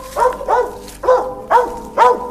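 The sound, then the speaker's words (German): A dog barks five times in a steady rhythm, each bark a mid-pitched, harmonic yelp of similar loudness, with no voices over it. “Ein Hund aus dem Nichts.”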